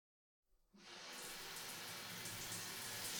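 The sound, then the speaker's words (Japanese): Warm water pours for a rinse. After half a second of silence it rushes in and settles into a soft, steady hissing splash that stays fairly quiet. “流していきますね。お湯が熱かったらすぐ教えてください。”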